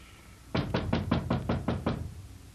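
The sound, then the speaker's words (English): Knocking on a door: eight firm, evenly spaced knocks in a steady rhythm, loud and alone with no voices. “open up. It's me. Ah, oh, come on, Charlie. What do I have to do? Break this door in?”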